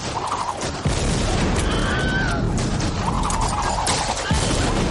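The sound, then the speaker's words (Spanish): Grenade explosions in a battle scene from the 1989 film Indiana Jones and the Last Crusade: two heavy blasts break through a continuous, chaotic din of noise. “Los alemanes tiran granadas hacia los asaltantes.”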